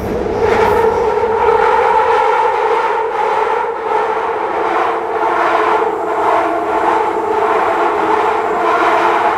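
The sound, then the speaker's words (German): An underground train's metal wheels screech against the metal rails on a gentle curve, a very loud, continuous high-pitched squeal held steady throughout, over a low rumble of the moving train. “Das Quietschen ist technisch gesehen als Schienenquietschen bekannt und tritt bei den meisten Zugsystemen eben auf, ganz normal. Es wird von den Metallrädern verursacht, die an leichten Kurven in den Metallschienen schaben”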